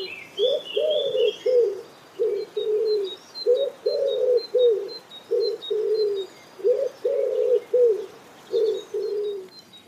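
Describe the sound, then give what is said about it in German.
A wood pigeon calls in the city with low, soft coos grouped into repeated rhythmic phrases, each phrase a short run of hooting notes separated by brief pauses. Faint higher bird chirps sound in the background. “Ebenfalls in der Stadt lebt die Ringeltaube und die klingt so.”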